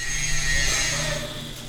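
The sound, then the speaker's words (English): Steady, loud hissing workshop noise from the welding program at the Blackwell campus's Northwood Center, holding even and unbroken with no voices. “On a tour of the Northwood Center, Hernandez and other students talked about what Blackwell means to them. Over here we have our welders.”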